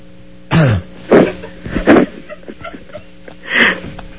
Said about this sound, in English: Oh my God. I got something in my throat.